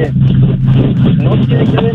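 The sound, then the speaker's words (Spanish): A caller's car engine running with a rough, steady low drone, heard under a voice speaking over a phone line. “Se oye muy feo tu carro.”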